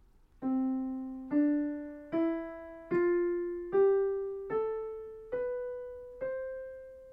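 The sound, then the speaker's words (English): A C major scale in the Ionian mode plays as eight ascending notes at an even pace. Each clear, decaying tone steps upward from low C to the C an octave above, with no voices. “Ionian mode sounds like this.”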